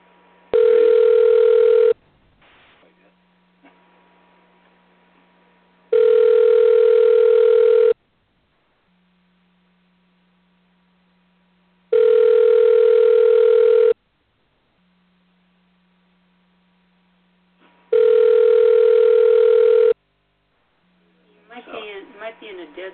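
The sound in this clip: A phone call goes through on the line with four loud, long ringback tones of about two seconds each, spaced evenly by quiet gaps with a low hum, before a recorded voicemail voice begins at the end.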